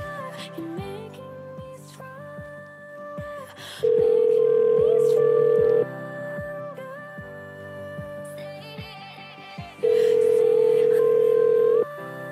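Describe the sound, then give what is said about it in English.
Telephone ringing tone while calling someone: two long, steady electronic tones of about two seconds each, separated by a gap, sounding loudly over continuous background music. “I'm going to call him again. Oh God, he's on the phone already.”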